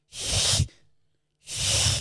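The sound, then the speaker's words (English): A voice imitates a young child hissing at a cinema screen: two long, loud, breathy hisses separated by a short pause of near silence. “and was just hissing at the screen because he'd never seen anything like it before.”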